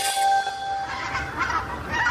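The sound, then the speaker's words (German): Migrating wild geese and cranes call in loud, overlapping honks that run on continuously through the short stretch. “Da fliegen sie wieder, die Kraniche, Wildgänse, Stare und andere Zugvögel.”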